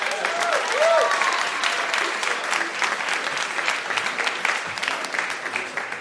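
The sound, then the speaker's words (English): A live audience applauds to welcome a guest, an astronaut, onto a show. Thick, continuous clapping runs steadily through all six seconds with no break. “Would you please give a warm hand to Mike Massimino?”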